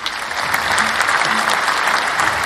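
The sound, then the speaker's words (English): Applause from a crowd marking Mexican Independence and Hispanic heritage month: dense, steady clapping that runs unbroken from start to finish without any talk. “So let's give them a round of applause, Skittles. Yes, we have to give them a round of applause”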